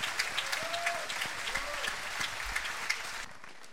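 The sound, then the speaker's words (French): Applause from the audience at the final of a tribute evening, dense and steady clapping that carries on for several seconds and then stops abruptly. “Qu'on applaudit très fort.”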